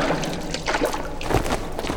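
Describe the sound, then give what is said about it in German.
Splashing water as people step into the shallows at a shore to bathe, with irregular sloshing and trickling bursts that keep coming throughout at a moderate level. “Wenn ihr wollt, könnt ihr jetzt schon einmal ins Wasser steigen. Aber bleibt bitte unmittelbar am Ufer. Alles klar. Jetzt wird gebadet.”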